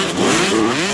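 A motocross bike engine revs in a loud, buzzing burst held for about a second, its pitch wavering slightly.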